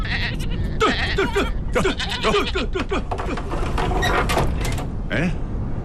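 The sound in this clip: Sheep bleating, a ewe about to give birth in cold weather, with many short, wavering bleats overlapping in quick succession, loud and continuous over a steady noisy background.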